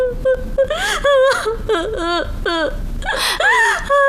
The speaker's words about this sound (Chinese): 哎，你哭什么呀？啊，你别哭啊，有话说呀。不许哭。